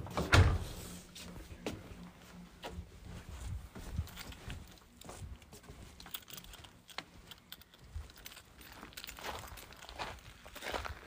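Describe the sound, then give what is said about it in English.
A door being closed: one solid low thump right at the start, followed by a long stretch of light clattering, tapping and rustling at a low level. “I'm going to have to close the door because the bugs”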